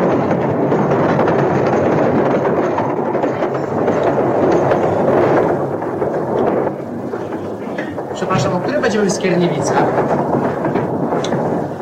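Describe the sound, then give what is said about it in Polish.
A train to Łódź passes through Skierniewice without stopping. A loud, continuous rumble lasts the whole stretch, with a brief dip midway and a louder burst of higher rattling and screeching near the end. “Ten pociąg nie zatrzymuje się w Skierniewicy.”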